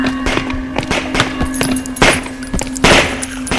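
Gunfire in an audio drama as infected people are shot down. A rapid, irregular series of sharp, loud bursts sounds over a steady low hum.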